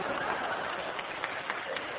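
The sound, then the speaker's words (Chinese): A church audience clapping, a continuous rough patter of many hands at a moderate, fairly even level with a few sharper claps standing out. “好听不好听？哎，好听，请拍手。”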